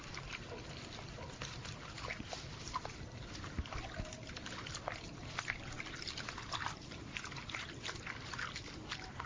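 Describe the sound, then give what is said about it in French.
Flour and water are mixed into dough, giving a continuous wet churning and sloshing with small splashy ticks throughout, steady in level and without talk. “Donc je fais le mélange farine et eau.”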